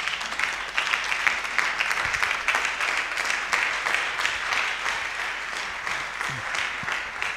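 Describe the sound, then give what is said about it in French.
Congregation applause at a French-language church service, a dense, steady clapping that holds at an even, fairly loud level for the whole stretch. “On va acclamer Dieu pour sa vie.”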